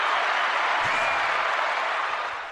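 Audience applause welcomes a guest, a sustained wash of many hands clapping that stays steady and full before tapering slightly at the end.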